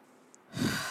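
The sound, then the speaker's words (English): A single deliberate breath, drawn as a long, soft, sigh-like rush of air, rises after a brief quiet click and holds steady to the end. “I'm going to take a breath here.”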